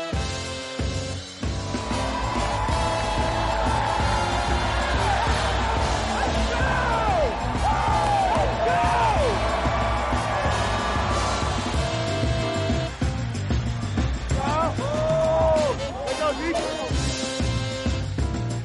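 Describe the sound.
Stadium crowd inside the Superdome in New Orleans at an NFL game against the New England Patriots, a dense, loud, continuous roar of many voices that holds steady throughout.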